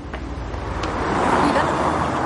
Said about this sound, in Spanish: Salen a la calle. Un coche pasa rápido.